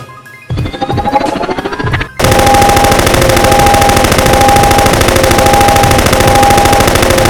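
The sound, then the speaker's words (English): Loud machine-gun fire breaks into a long, unbroken burst of rapid, evenly spaced shots after a quieter opening and keeps going to the end. “Have some ammo left in this gun.”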